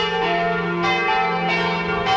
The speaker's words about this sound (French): Depuis des jours et des nuits, des centaines de cloches sonnent, tonnent, carillonnent à toute volée